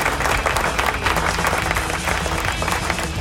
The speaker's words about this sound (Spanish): ¡Aplausos! Ahí están los aplausos, ahí están los aplausos.